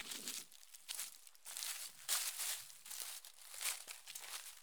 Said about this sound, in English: why, you may ask yourself, listen to me walk around on a hiking trail?